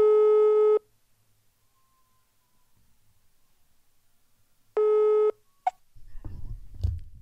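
Ringback tone of an outgoing telephone call: two steady, buzzing tone bursts about four seconds apart with faint line hiss between them, followed by a sharp click and rough, crackling noise.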